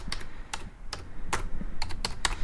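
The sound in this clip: Typing on a computer keyboard while writing in Russian: irregular bursts of crisp key clicks, some single and some in quick clusters, moderately loud with brief pauses between them and no voices.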